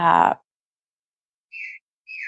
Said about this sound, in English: And I'm listening to the birds chirping in the background where you are.